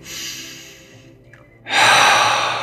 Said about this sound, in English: Take another breath in.